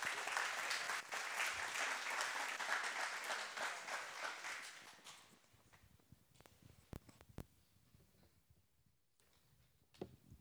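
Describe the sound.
A church audience applauds as a speaker is welcomed at a morning service: a dense wash of clapping that holds for about five seconds, then thins out to a quiet room with a few scattered knocks and rustles.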